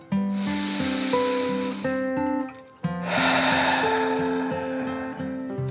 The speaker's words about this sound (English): Allie settled into her pillow. She took another deep dragon breath